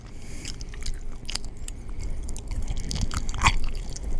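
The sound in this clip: Close-miked chewing and biting as a man eats Super Sod: many irregular wet smacks and crunches over a low rumble, with one sharper, louder crunch near the end.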